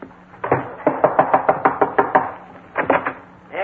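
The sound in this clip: Knocking on a door as a detective arrives: a long, rapid, evenly spaced series of sharp raps, a brief pause, then a few more quick knocks.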